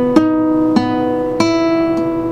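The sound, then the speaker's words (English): Plucked guitar notes fretted at the 9th fret on the 4th string and the 8th fret on the 3rd string. Four clear tones ring out alone, evenly spaced, each sustaining and slowly decaying before the next. “So you're at the 9th fret, 4th string. Lift off finger 1 and put 2 down on the 3rd string at fret 8, and it'll sound like this.”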